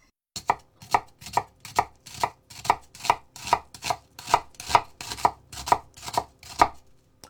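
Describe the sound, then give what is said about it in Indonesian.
A knife finely minces a halved onion, already sliced thin lengthwise, on a cutting surface, making a steady series of evenly spaced, crisp chops with no talk. “Pastikan mencincangnya dengan halus. Bawang dipotong 2 secara memanjang. Iris tipis memanjang, lalu iris lagi melebar sehingga menghasilkan cincangan yang kecil-kecil.”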